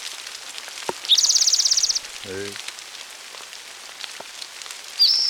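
Light rain falling, a soft scattered patter of drops that runs throughout, joined briefly by a high buzzing trill and a short low pulsing call.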